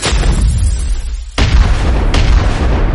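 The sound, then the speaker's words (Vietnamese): Deep, heavy rumbling as the ground shakes, a continuous loud roar with two sudden booming surges that swell through the low end. “Đất ầm ầm rung chuyển”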